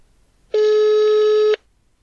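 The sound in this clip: A telephone ringback tone on an outgoing call: a single steady, buzzing, mid-pitched tone lasting about one second, starting and stopping abruptly, alone against near silence.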